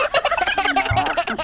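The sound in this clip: Several turkeys gobble in a loud, rapid, burbling rattle of many quick pulses that runs on as a continuous chorus.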